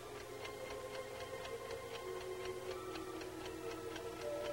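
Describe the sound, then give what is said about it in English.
An alarm clock sitting on a stove ticks in a faint, steady, evenly spaced rhythm of many quick, light clicks, with nothing else sounding. “glances at an alarm clock sitting atop the stove. 8:20. He picks up the clock and stares at it”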